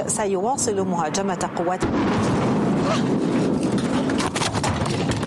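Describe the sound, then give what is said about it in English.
An Israeli airstrike explosion on Syria's Defense Ministry in Damascus: a voice is heard briefly, then a sudden loud blast at about two seconds breaks into a sustained, rough roar of noise that continues to the end. “An Israeli airstrike hit Syria's Ministry of Defense in Damascus during a live TV news broadcast.”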